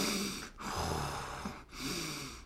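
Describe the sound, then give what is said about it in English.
A voice imitates very loud, heavy breathing, as from a man sitting in a cold plunge: harsh, breathy rushes of air that continue almost unbroken, with brief dips between a few long breaths. “suddenly we hear, like, this from the cold plunge, like, this very loud breathing”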